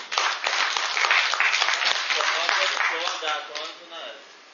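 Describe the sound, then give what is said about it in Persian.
Applause breaks out, a dense patter of clapping that thins and fades toward the end, with voices talking over it. “یه دست به افتخارش بزن.”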